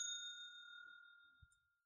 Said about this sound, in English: so I'm gonna hit the bell here